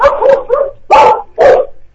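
Angry female dogs bark in a few loud, sharp bursts with short gaps between them. The barks are strongest near the end of the sequence.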